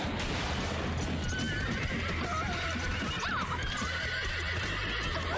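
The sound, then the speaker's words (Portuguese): Horses neigh and gallop during a horse race, with shrill whinnies rising above a continuous, dense rumble of pounding hoofbeats. “A corrida de cavalo tá ficando quente.”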